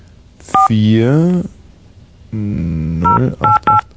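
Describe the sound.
Touch-tone keypad beeps as a telephone number is dialed: a few short, steady dual-tone bursts, one early and a quick run near the end, with a voice talking between them.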